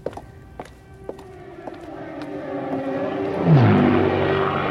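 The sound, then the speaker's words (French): Droning engines of Luftwaffe bomber aircraft flying over England during the 1940–41 bombing raids. The broad, throbbing roar swells steadily and grows louder toward the end, with a few sharp taps early on. “les avions de la Luftwaffe bombardent sans relâche l'Angleterre”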